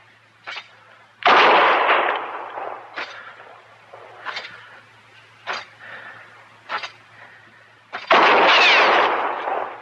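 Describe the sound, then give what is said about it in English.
Gunshots ring out in an Old West standoff as a woman fires at a marshal. Two loud, long booming blasts stand out among several shorter, sharper cracks spaced across the stretch, with no talking. “Next shot will go through your heart, Marshal.”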